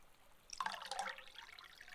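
Water rinses lightly over a surface after something has been spread evenly on it. The soft, hissing trickle begins about a quarter of the way in and continues quietly to the end.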